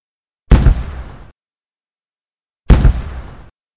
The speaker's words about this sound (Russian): Во дворе послышались хлопки прикуренных мишкой взрывпакетов